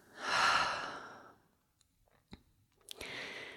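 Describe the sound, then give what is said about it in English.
A slow, deep breath in and out, a long, soft, airy rush that swells and fades, followed by a few faint mouth clicks and the start of another breath. “Deep breath in and out.”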